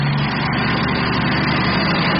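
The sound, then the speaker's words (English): Steady low engine rumble from an idling food truck at a parade, an even, unbroken drone with a deep hum that holds level from start to finish, with no voices. “Park the food truck over there, where the parade begins to wind down.”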